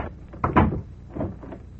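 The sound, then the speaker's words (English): A door opens with two muffled wooden clunks, the first louder and scraping, the second softer, heard alone. “And the opening of this door introduces us to another in the series, the key.”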